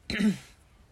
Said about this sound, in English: I'm choking on my hamburger bun. She's choking on her grabby patty.